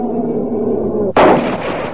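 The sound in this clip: A single loud gunshot fired at a maned animal on a bank, a sharp burst cutting through steady wind-like noise and trailing off into a rumbling decay.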